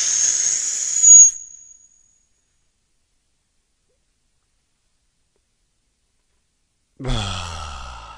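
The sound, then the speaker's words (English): A group takes a deep breath together: one long, breathy inhale that swells and then fades into several seconds of silence before a voice returns. “let's all take a deep breath together. Ready? Shall we? Here we go. 1, 2, 3.”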